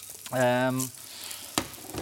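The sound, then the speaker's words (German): Sizzling of vegetable peel roasting in a pan until golden: a steady hiss runs throughout, with one sharp tap near the end. “nehme die Schale, die röste ich separat. Hab die hier drin, so schön goldig, ja.”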